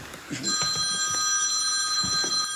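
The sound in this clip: Telephone bell ringing with a bright, steady, sustained tone that begins just after the start and carries on to the end, with faint voices underneath.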